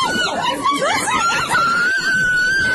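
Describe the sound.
Restaurant employees scream during a physical confrontation with a waiter at a khachapuri eatery. High, wavering voices overlap loudly, and one shrill voice holds steady through the second half.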